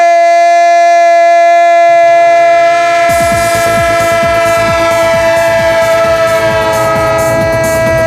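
A train horn sounds a loud, sustained multi-tone chord throughout, and after about three seconds a rapid rhythmic clatter of wheels on rails joins in beneath it.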